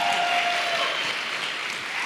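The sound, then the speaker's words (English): Applause from a crowd, a steady wash of clapping that holds at an even loudness for the whole two seconds with no voices over it. “Give him a round of applause again.”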